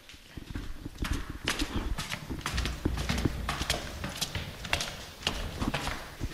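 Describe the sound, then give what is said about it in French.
Footsteps climb the stairs of a house with eight bedrooms, a long run of hard, clopping treads in an uneven rhythm, moderately loud throughout. “Je vous propose de monter les escaliers.”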